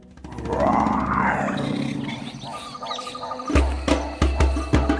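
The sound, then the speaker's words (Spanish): A lion roars in a jungle scene: a loud, deep, drawn-out roar that swells and fades, then gives way to a series of sharp percussive knocks. “Aunque pensándolo un poco mejor, mejor que se escondan que viene el león.”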